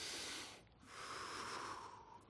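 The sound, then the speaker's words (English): A deep calming breath taken slowly: two breathy, hissing phases split by a short pause, the second longer and softer as it trails off. “i picture my, a woman maybe going into labor, and she's they teach you to breathe. So I'm going to do that a second”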